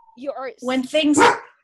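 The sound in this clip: A dog that reacts strongly to sirens gives a few short, tonal barks and yelps in quick succession. The calls are loud and ringing and rise to a sharper, stronger final cry.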